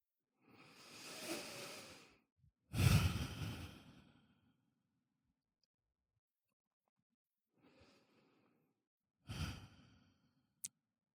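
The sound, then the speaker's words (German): Slow, deep breathing in and out: a soft inhale followed by a louder, whooshing exhale, then after a long silent pause a fainter breath and another airy exhale, ending with a small click. “Atmest die frische Luft ein und aus.”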